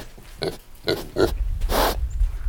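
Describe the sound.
A pig grunts softly as it walks through several inches of snow. A few short, low grunts come at a steady walking pace, followed by a longer breathy rush of sound.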